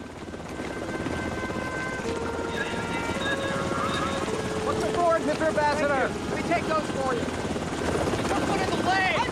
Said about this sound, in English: Lieutenant A.K. Waters, emerges from a helicopter with several other men and leads them across the carrier's runway.